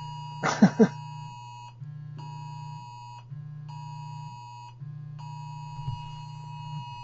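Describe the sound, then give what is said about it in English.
An Amber Alert tone on a phone repeats in on-off beeping pulses over a low, steady hum. It is moderately loud, with a couple of brief knocks near the start. “Listeners, there's an amber alert. That's the noise you just heard.”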